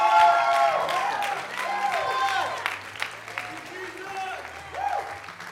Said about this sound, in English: Why don't we give Jesus a round of praise? Come on.